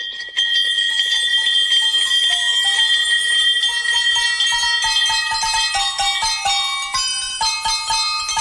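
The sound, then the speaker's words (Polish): Bells ring out a joyful carol made from real victory bells that are rung in clinics when a patient beats cancer. Bright, loud chimes strike in quick succession, forming a clear tune with shifting pitches and no voices. “Słuchacie właśnie najradośniejszej kolędy na świecie. Złożonej z prawdziwych dzwonków zwycięstwa. Tych, które rozbrzmiewają w klinikach, kiedy ktoś pokonał rak.”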